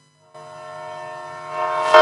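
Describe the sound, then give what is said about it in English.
A train horn sound effect: one sustained, chord-like blast that holds steady, then swells louder toward the end. “chuku chaka like a train yo.”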